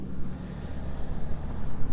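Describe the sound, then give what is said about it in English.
Wind blows outdoors and buffets the microphone in low, rumbling gusts that stay fairly steady throughout. “the wind has changed direction, so I just turn around and I better head off”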